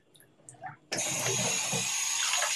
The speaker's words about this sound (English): Let me put some water in this.